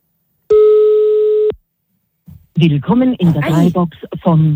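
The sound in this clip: A telephone ringing tone sounds once as a steady, even tone lasting about a second, then stops abruptly as the call is hung up; after a short silence a voice speaks.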